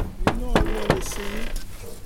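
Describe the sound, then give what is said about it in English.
A fist pounds on the front door of a white stucco house, three heavy thuds in quick succession with a voice sounding alongside and a low background hum. “He pretends he's not at her front door, even as he bangs on the door.”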